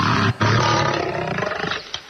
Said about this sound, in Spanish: Tengo una grabación de un león del anfiteatro romano.